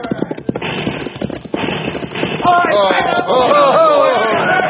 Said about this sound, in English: What do you think you're shooting at?